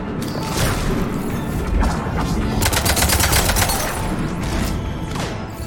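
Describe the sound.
Gunfire in a video game, aimed at an armored vehicle: loud, continuous shooting with dense rapid bursts and heavy impacts that run the whole way through.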